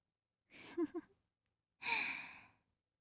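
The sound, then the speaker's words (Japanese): Deep breathing during a guided relaxation: a short breath with a slight vocal tone, then after a pause a longer, airy exhale, both quiet and calm. “深呼吸、そのまま続けてくださいね。”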